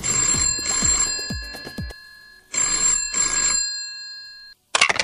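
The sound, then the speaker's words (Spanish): A telephone bell rings with an incoming call to a radio show: a rapid metallic ring, a pause of silence, then a second ring, followed by a brief loud burst of noise at the very end. “Tenemos nuestra primera llamada del programa de hoy.”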